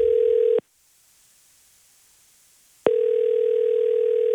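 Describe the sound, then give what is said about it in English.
A steady, continuous telephone dial tone while a call is being placed. The tone cuts out abruptly for about two seconds of silence, then resumes at the same pitch. “shall we ring them and tell them the good news? Absolutely. All right. Let's dial away.”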